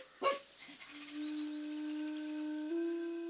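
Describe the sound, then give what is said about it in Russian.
A dog whimpers faintly. A short sharp yelp comes first, then a long steady whine that steps up slightly in pitch near the end. “Зачем держать такую паршивую собаку?”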